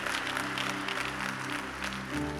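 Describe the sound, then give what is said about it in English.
A church audience claps their hands together at a worship service, a quiet, steady patter with sustained musical tones running underneath. “If you believe that, stand to your feet. Jam those two precious hands together.”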